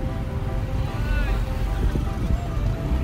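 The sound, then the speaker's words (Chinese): Steady low engine rumble and road noise from the back seat of a motor scooter at a motorcycle licence practice ground in Taiwan, a loud, continuous drone. “现在我是坐在机车后座。”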